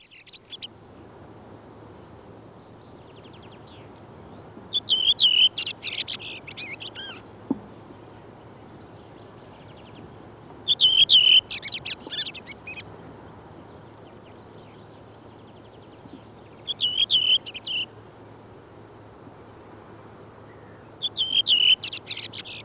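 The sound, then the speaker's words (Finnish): Redwing song in Finland: several short bursts of high, fluting and twittering phrases, about five in all, separated by pauses of a few seconds over a low, steady background hum. “Punakylkirastas laulaa näin.”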